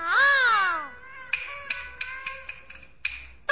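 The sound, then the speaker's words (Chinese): A baby cries after waking while its mother was off washing clothes by the sea: a loud wavering wail that falls in pitch, followed by a thin steady tone broken by several sharp clicks. “哎呦，那么会儿功夫孩子醒了，我说通国呀，你别哭，为娘就来哄你。”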